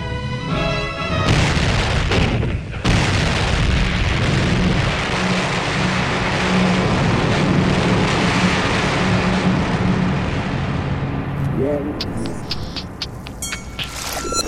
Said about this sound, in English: The Iowa's commander orders her 9 16-inch guns to fire a mighty salvo.